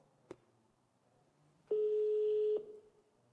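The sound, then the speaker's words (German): Ringing tone on an outgoing phone call: a faint click, then a single steady tone lasting about a second over quiet background hiss. “Ich rufe natürlich nochmal an. Immer weiter.”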